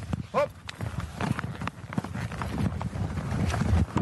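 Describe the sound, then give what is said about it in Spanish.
A horse trots during a riding lesson, its hooves beating in a quick, regular clip-clop against a rustling background that grows slightly louder toward the end. “Venga, pues salimos. Trote.”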